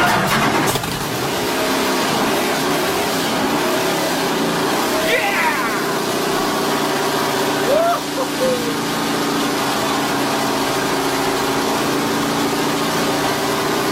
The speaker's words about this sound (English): This is actually a recording of Bruce McLaren's Can-Am firing up. Just listen to the very start and you'll hear this very unusual noise. It's kind of like the pistons filling up and then she fires up and wah!